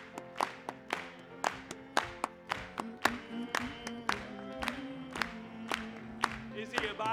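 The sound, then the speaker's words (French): A church audience claps in unison: many sharp, evenly spaced claps beat a steady rhythm over sustained voices, staying moderately loud throughout. “Continuons à acclamer pour lui.”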